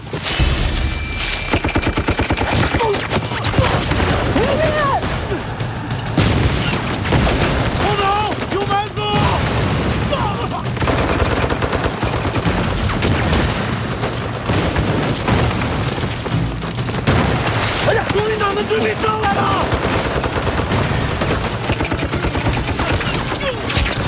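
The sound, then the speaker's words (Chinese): Heavy machine-gun fire comes from two guns, one placed high and one low, in crossfire. Loud, rapid, continuous bursts and booming reports run throughout, with voices heard at times through the gunfire. “配备了两场重机枪，一上一下，交叉火力，把我们前行路彻底封死了。”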